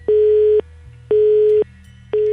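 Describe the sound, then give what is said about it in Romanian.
Telephone busy signal on a call to a village town hall in Romania: loud, steady single-pitch tone pulses about half a second on and half a second off. Three beeps sound, the last cut off, with a low line hum between them and no voices. “sună ocupat de două zile”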